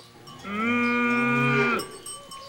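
A cow with her calf gives one long, loud mooing call, steady and harmonic, lasting over a second, heard alone with no talk.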